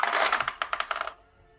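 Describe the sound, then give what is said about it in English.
Dice clattering across a table during a tabletop game: a quick run of bright, hard rattling hits that lasts about a second, then settles and stops. “Oh, that dice is going down.”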